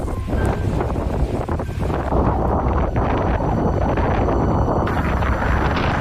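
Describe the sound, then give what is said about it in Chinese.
A strong wind gust sweeps over desert sand during summer sandstorm season, producing a loud, steady roaring rush with heavy buffeting on the microphone throughout and no voices. “随着一阵狂风袭来，原本寂静的沙海忽然躁动起来。”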